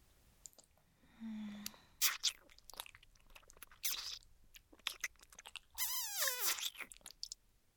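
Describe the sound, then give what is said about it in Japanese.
Someone quietly chewing food, with crunchy bites and wet mouth clicks coming in irregular bursts, alone and close. “食べてる。”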